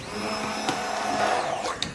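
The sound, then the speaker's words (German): A blender motor runs at a steady whine while it purees the last batch of food for straining through a sieve, with a couple of brief knocks. “Jetzt aber gerade nochmal die letzte Fuhre pürieren, damit ich das hier dann, während ich weiter erzähle, durch Sieb streichen kann.”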